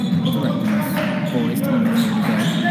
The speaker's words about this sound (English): Slow, but steadily dribbling up the court.